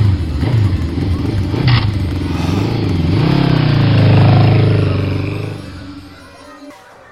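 Motorcycle riding at 65 miles per hour, a steady, loud roar of engine and rushing noise that swells toward the middle and then fades near the end.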